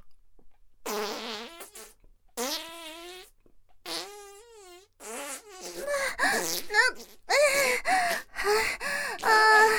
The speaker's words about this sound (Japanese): ちょっと水っぽい音が出たね。すっごく臭いでしょ？でも、響くよね。